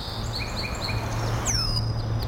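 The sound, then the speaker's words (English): Red-winged blackbirds and song sparrows call in a marsh at dawn: repeated short, high chirps in a quick series, then a louder, clear note sweeping downward, over a steady low hum. “The morning chorus is dominated by the trills, chatter and chuck of the red-winged blackbirds and the sweet call of the song sparrows.”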